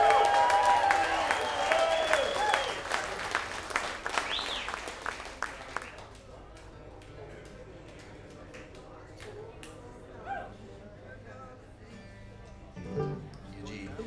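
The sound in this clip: An audience applauds and cheers to welcome a bass player joining a band on stage. The clapping is strong for several seconds, then dies away to scattered claps.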